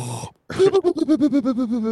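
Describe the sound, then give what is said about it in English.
A voice imitates cartoon snoring with a rhythmic run of throaty, wavering pulses, coming right after a brief bit of speech and a short pause. “he does cartoon snoring. He goes,”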